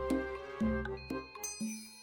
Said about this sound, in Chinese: 师傅，驱魔铃响了。